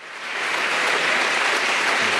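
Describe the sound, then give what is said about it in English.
Applause from a friendly home crowd in Manchester greeting Andy Burnham at a political address, a dense, even wash of clapping that swells up within the first moment and then holds steady. “Addressing a friendly home crowd in Manchester, Andy Burnham made his pitch to the country.”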